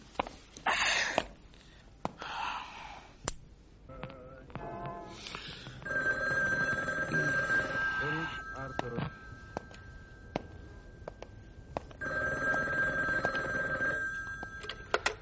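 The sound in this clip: A telephone bell rings for an incoming call in two sustained, bright bursts separated by a pause, with scattered knocks and other brief sounds before and between the rings.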